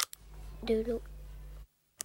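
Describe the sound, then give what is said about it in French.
Finger snaps heard as sharp, dry clicks, one near the start and one at the end, over a low steady hum, with a short vocal sound between them. “Il claque des doigts.”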